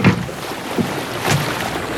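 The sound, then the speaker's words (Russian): A boat on the water being brought to a stop, heard as a steady hiss of water and wind with a few soft surges or splashes rising above it. No voices. “Я останавливаю лодку.”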